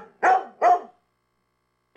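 A dog barking: two sharp, loud barks in quick succession, a short silence, then the start of a third bark at the very end.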